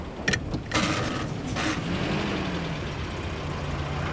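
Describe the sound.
A car sets off to drive away, its engine producing a steady, low, even rumble throughout, with a few brief knocks and clunks near the start before the motor noise settles into a constant hum.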